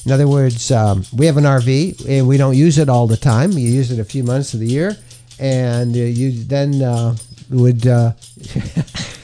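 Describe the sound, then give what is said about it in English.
A dog scratches its neck so its new license tag jingles in quick metallic rattles, heard beneath continuous talking. “That's Bo. Bo got his new dog license. And he's scratching his neck. He's giving himself a scratch.”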